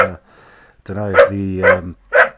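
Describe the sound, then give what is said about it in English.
A female dog barks excitedly at a phone or microphone pointed at her, giving a few loud, harmonic barks and yips in quick succession after a quiet opening. “She looked at the mic or the phone pointing at her, and now she's gone even more bonkers. So yeah, that's enough from the noisy dog.”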